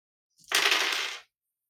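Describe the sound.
Dice rattle across a table during a tabletop roleplaying game, one quick clattering roll lasting under a second, fairly loud and alone with no talk.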